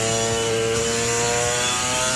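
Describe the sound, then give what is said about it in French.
Two-stroke 250cc motorcycle engine revving, a steady, high-pitched, buzzing drone with strong harmonic tones that holds constant throughout, no voices. “c'est un son vraiment caractéristique du deux temps, surtout une 250”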